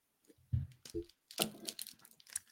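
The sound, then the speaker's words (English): A wrestling trading card pack being torn open, with soft crinkling and ripping of the wrapper in a few short, quiet bursts and no talk. “that little ASMR pack opening”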